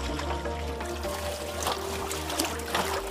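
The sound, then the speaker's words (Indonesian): Cassava is washed in water, making continuous splashing and trickling sounds with a few louder sloshes over a steady low hum. “Barulah singkong dicuci agar semua lendir pada singkong hilang. Pastikan juga tak ada lagi kotoran yang tersisa ya.”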